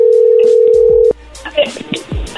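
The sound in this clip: A steady, loud telephone ringing tone at one pitch holds for about a second while calling a woman for a radio serenade surprise, then cuts off abruptly, followed by brief voices and line noise.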